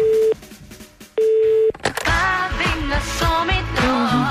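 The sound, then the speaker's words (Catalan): Telephone ringback tone on a call to a political party's office: two long, steady single-pitch rings separated by a pause, then recorded music begins playing on the line. “hem pensat a trucar a les seus dels partits polítics independentistes per saber com està una mica el tema. Sí. Va. Comencem per Junts per Catalunya.”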